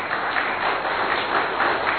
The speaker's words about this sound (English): don't give him too much applause.